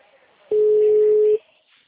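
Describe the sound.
A single ringback tone of an outgoing telephone call, a steady mid-pitched beep lasting just under a second that starts and stops cleanly over faint line hiss, with no talking.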